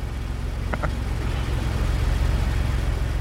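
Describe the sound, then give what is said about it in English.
A car drives up at the end of a film scene. Its engine gives a steady, low rumble that grows slightly louder in the second half, with a brief high chirp near the start. “And that's John Hamm driving up at the end of that scene.”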